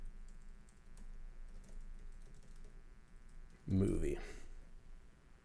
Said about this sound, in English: I typed in Life Extension movie and it says Vanilla Sky.